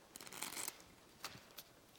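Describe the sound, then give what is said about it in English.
Riffle shuffle of a deck of playing cards: a short, soft burst of rapid flicking as the halves interleave, then two brief quiet taps, faint against low background hiss. “the most common, well, maybe not the most common, second most common, which is the riffle shuffle, is also not a good shuffle.”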